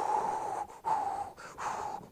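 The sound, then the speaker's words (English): Forceful breathing out, as in a one-second lung function test: several breathy, whistling bursts of air separated by brief breaks, moderately loud, with no talk. “they breathe in, take a big breath, and in 1 second, see?”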